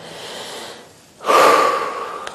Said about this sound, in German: Dann atme ich ganz tief, ja?